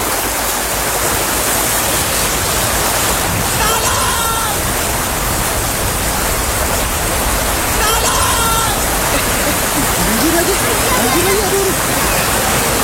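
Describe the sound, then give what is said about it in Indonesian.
Heavy rain pours down in a dense, steady hiss during a flood, holding an even, unbroken roar throughout. “hujan lagi gimana dong? Iya hujan ya. Selama kita di sini, perasaan hujan terus deh.”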